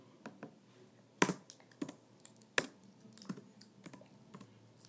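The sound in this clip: Typing on a computer keyboard: faint, irregular key clicks, with a few sharper strikes standing out among many lighter taps.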